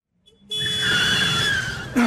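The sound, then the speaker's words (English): A car skids past a pedestrian with a long, sustained high-pitched tire squeal lasting over a second, fairly loud and steady, ending with a short louder burst of noise. “Oh, if you hadn't pushed me, that car would have hit me.”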